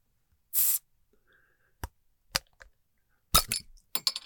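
A bottle of Martinelli's pear cider being opened: a short loud hiss of escaping fizz, then a few sharp clicks and pops separated by quiet gaps.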